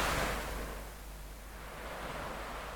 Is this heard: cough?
no